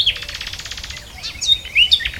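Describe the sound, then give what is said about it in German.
A lesser whitethroat sings a rapid, dry, rattling trill of evenly repeated notes. Brief, higher chirps follow the trill. “kommt doch die Klappergrasmücke wenigstens optisch noch ganz gut bei weg. Herrlicher, kleiner, selbstbewusster Vogel der Woche klappert vor sich hin,”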